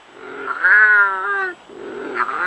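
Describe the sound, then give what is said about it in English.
A British native wildcat meows: one long, loud, tonal call with steady pitch, followed by a softer, shorter call. “efforts to revive the only native cats still found in the wild in Britain.”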